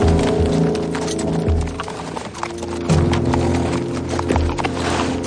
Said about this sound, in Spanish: Al amanecer, Ben cabalga tirando de las riendas de cuatro caballos.